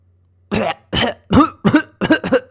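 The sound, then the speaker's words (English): A baby choking and coughing up water after a brief dip: six harsh, raspy, strained coughs in a rapid, uneven series, loud and with no talk. “she was choking basically. She had breathed in the water or had swallowed the water, and she was just coughing it all back up.”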